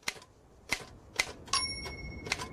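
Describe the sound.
Typewriter keys strike on an old, balky machine that was recently cleaned and fitted with a new ribbon. Five sharp, unevenly spaced clacks sound alone, and a thin ringing tone lingers after some strokes.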